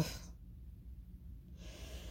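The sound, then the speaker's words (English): A deep cleansing breath taken alone, heard as a soft airy hiss at the start and again near the end, with a quiet pause in between. The whole sound stays faint. “Cleansing breath.”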